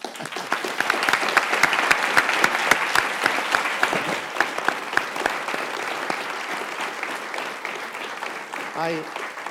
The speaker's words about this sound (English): So in that vein, let's give everyone a hand.